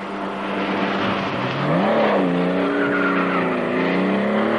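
A car accelerates hard to catch and overtake a convertible on a curve. Its engine is a loud, continuous roar whose harmonic tones dip and then climb as it revs up.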